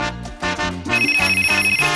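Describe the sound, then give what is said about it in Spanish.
A telephone ringing effect introduces a radio contest: a bright, rapidly trilling bell tone rings steadily over musical notes, starting about halfway through. “Aquí está el esperado concurso de Radio Martí. Siempre tempranito, ring, ring. Óyelo sonando.”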